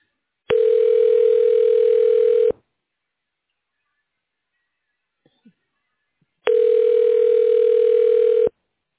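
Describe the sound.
Ringback tone of a telephone call being transferred to voicemail: two steady, buzzing rings of about two seconds each, separated by a pause of about four seconds.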